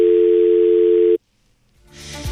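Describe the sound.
Telephone dial tone while a call is connected: a steady, loud, continuous tone holds for about a second, cuts off abruptly into near silence, and is followed by a low rising rush of line noise.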